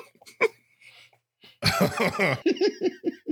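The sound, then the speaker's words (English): Throat clearing: a loud, harsh burst lasting under a second, followed by a few short, rhythmic voiced pulses. Fainter scattered vocal noises come before it. “It was just a funny throat clear for some reason.”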